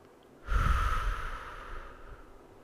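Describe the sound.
A deep breath drawn in and let out through the mouth during a guided breathing meditation, heard as a single loud, breathy rush that starts abruptly and slowly fades, with no talking.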